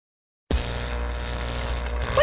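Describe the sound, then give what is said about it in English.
An electric fan being plugged in: silence, then an abrupt start into a loud, steady hum and whir that holds evenly to the end. “Plugging in now. I'm plugging in a fan because it's so hot this summer”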